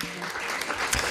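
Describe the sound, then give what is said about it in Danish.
A pre-recorded applause sound effect is played in a studio: a short, dense burst of many hands clapping that lasts about a second. “Har vi noget klapsalve liggende, Nanna? Ja, det har vi.”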